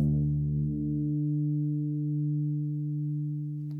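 A bass part holds the note D in octaves for a song's opening chord: a single low, steady tone that rings alone for nearly four seconds, its higher overtones thinning out after about a second.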